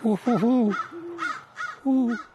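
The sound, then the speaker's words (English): An upset crow fussing with several harsh, nasal caws in an uneven series. Some are short and others drawn out, and they sound fairly loud and alone. “I'd say that crow is upset, but it's leaving now. It did its duty. It fussed.”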